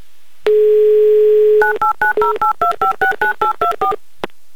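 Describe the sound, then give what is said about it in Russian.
A telephone number is dialled on a landline: a steady dial tone plays, then a quick, evenly paced run of many short touch-tone beeps at shifting pitches, followed by a single click. “В общем, набираю ваш номер.”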